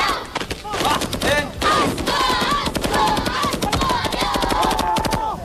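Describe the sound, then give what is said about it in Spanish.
Gunfire from automatic weapons, rapid bursts of many sharp cracks in an uneven, dense rhythm, loud and continuous, with voices calling out over the shots. “Me ha pegado un tiro, macho.”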